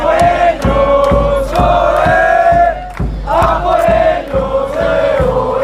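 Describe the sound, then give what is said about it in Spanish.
Loud crowd of Spain football fans chanting in the streets before a final, voices sung in unison over regular, sharp percussive beats that keep going throughout. “España, junto a la Peña de la Furia Roja, y ya podéis escuchar cómo está el ambiente en estas calles a punto de que llegue esa final en la que España quiere colocarse su segunda estrella. Así suena.”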